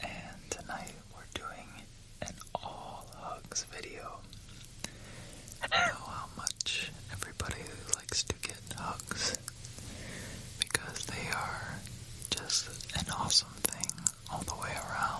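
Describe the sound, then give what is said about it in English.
Soft ASMR whispering with mouth clicks: a steady hushed breathy voice, scattered with quick sharp little clicks and smacks throughout, kept quiet and close. “Would you like to hear a little bit of ASMR? Yeah, go on.”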